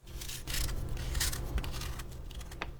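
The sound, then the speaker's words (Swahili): A radish being peeled while preparing garnishes for a tofu dish in dashi broth, heard as faint, continuous rasping scrapes in steady repeated strokes, with no talk. “Kwanza menya figili.”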